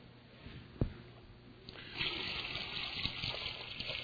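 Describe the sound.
Water pours from a pitcher into a gallon jar, a faint, steady gush that swells partway through after a single soft knock and keeps running to the end.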